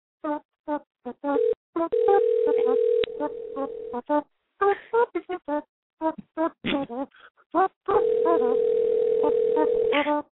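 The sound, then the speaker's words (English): A telephone dial tone and key-press beeps as a number is dialed: many short beeps in an uneven rhythm, broken by long, steady, low tones near the start and again at the end. “Some dialing music. I hope this is the right number.”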